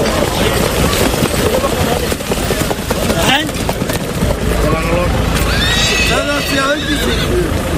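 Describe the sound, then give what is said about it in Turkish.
Horses neighing and hooves clip-clopping as ambling-gait horses with jockeys race on a sand track. The sound is a loud, continuous mix with voices underneath throughout. “Bu sefer kum pistlerde rahvan atlar koştu. 130 jokey ve at kıyasıya yarıştı.”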